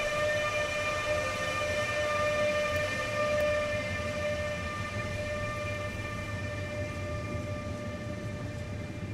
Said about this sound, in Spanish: Estas locomotoras suenan de una forma muy, muy especial.